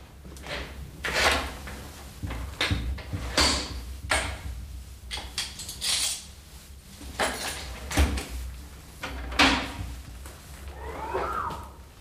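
A heavy steel vault door on a strongroom is opened, heard as many clunks, knocks and scraping mechanical rattles spread irregularly over about twelve seconds, with short quiet gaps between them.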